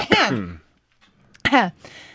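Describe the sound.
A person clearing their throat twice, two short rasping voiced bursts separated by a brief pause.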